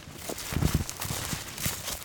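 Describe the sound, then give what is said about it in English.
Footsteps push through a dense thicket of scrubby bushes in the hills above Glenwood Springs, Colorado, with crunching steps and rustling brush in an uneven walking rhythm at moderate loudness. “I'm walking through a dense thicket of scrubby bushes up in the hills above Glenwood Springs, Colorado.”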